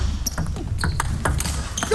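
Table tennis serve and ball bouncing during a match: a few sharp, crisp ticks stand out over a steady, dense low background rumble.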